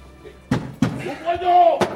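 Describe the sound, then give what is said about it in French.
Heavy knocking on a door in a dramatised reading, blows that pound as if struck with a horseshoe: two sharp thuds close together, a brief vocal sound, then a third hard knock. “quand des coups qui semblaient être portés par un fer à cheval ébranlèrent ma porte.”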